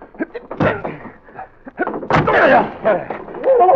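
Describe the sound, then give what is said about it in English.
A flimsy locked door aboard a ship is forced open by people throwing their weight against it, producing a series of heavy thuds and bangs, with a loud crashing burst in the second half. “I suppose the door is locked. Yes, but it doesn't look too strong. We should be able to break our way out. Come on, put your weight into it.”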